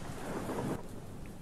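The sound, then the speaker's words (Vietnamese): Faint, steady hiss of thunderstorm rain, with a low rumble of thunder underneath that drops away about halfway through, leaving only the rain. “Trời chẳng hiểu sao bắt đầu đổ mưa, sấm sét cứ đùng đùng đoàng đoàng.”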